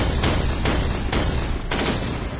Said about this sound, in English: The gun bucked five times rapidly. Five bombs exploded in midair, direct hits by the gun.